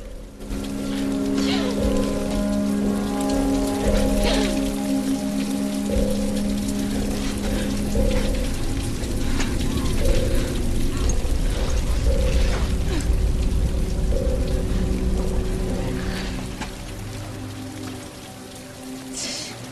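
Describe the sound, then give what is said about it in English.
Water pours down the rocks of a cavern in a steady, rushing, splashing wash that holds at an even level throughout and fades slightly near the end. “Water pours down the rocks beside her.”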